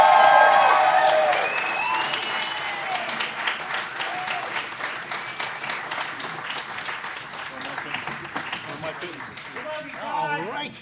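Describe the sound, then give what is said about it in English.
Audience applause welcoming a group of performers, a dense, steady roar of many clapping hands with a few cheering voices at the start, fading slightly and then holding steady. “So please, put your hands together and welcome Geek Shock!”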